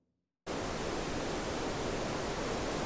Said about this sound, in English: Okay, so the next example we've got is green noise.